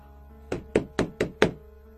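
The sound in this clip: Knocking on a room door: five sharp, hollow knocks in a steady, fairly quick run, loud against an otherwise quiet, faintly humming background.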